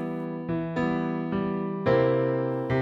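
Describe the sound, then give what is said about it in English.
Chords move from E minor to C dominant seventh in a series of struck, ringing strums with distinct attacks, sustained at a fairly even level between strikes. “But if we go from E minor to C dominant seventh, it sounds like this.”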